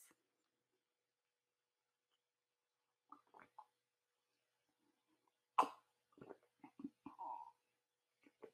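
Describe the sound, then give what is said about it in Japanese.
A person pauses to drink water: a few soft sips and swallowing sounds with one sharp clunk, separated by stretches of near silence, all faint and close. “ちょっと待ちますね。お水飲みます。”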